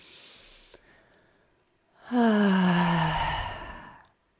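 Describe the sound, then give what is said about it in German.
One deep, drawn-out breath taken as part of a guided breathing exercise, lasting about two seconds after a quiet stretch, with a soft voiced tone that falls gently in pitch. “Ein richtiges Einatmen. Dann machst du das nochmal.”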